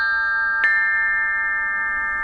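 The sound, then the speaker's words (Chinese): Ancient bronze chime bells ring out, one bright struck note sounding over sustained, layered metallic tones that hang on and slowly fade. “快来听啊，曾侯乙编钟竟然再次奏响了”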